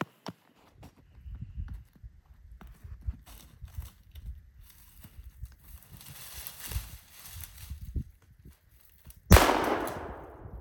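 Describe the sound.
A single loud gunshot cracks out near the end during a hunt at a brush pile, then rings off in a trailing echo. Before it come faint rustling and shuffling steps in the brush.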